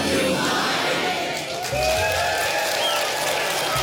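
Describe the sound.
An audience at the Telluride film festival cheers for Mike Leigh, with loud, continuous applause, whoops and shouts that dip briefly midway and then swell again.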